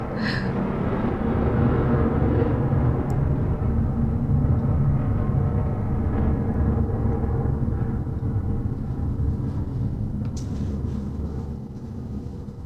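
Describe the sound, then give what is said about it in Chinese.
A fighter jet flying overhead, a loud, sustained low roar that holds steady for most of its length and then eases off toward the end. “又有战斗机。”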